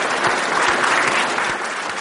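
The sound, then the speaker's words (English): Scientists at a space agency in Bangalore applaud as a Mars spacecraft enters orbit. Dense, steady clapping from many hands holds at an even level throughout, with no clear voices above it. “The scientists cheered and shook hands as the spacecraft entered into the orbit of Mars.”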